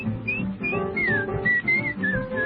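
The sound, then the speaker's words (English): A cheerful tune is whistled as a run of short, bright, slightly gliding notes in a steady, lilting rhythm, with fuller sound sustained underneath throughout. “Try to be just like the cheerful chickadee. And whistle while you work.”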